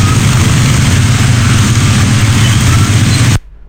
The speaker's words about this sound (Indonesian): Ini lalu lintas di daerah Bandulan arah ke Medan.